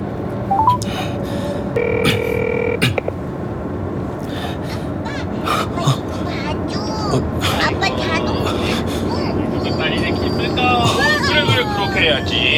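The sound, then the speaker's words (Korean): Telephone dialing tones play as a call is placed through a car navigation voice system: a short run of electronic tones rises above continuous background noise, with voices and babble around them. “동윤이한테 전화 걸어줘. 네, 동윤이에게 전화를 걸겠습니다.”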